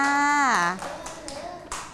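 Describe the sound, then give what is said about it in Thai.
Children in a class clap for a classmate's butterfly drawing. A voice speaks at first, then a few scattered, fairly light claps follow. “ปรบมือให้กับน้องกรีนหน่อยค่ะ”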